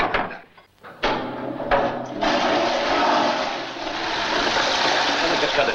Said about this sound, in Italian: Vuol sentire la cascata? Faccio aprire una finestra. Fai la cascata.